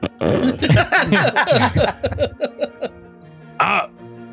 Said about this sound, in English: There's somebody clearing their throat.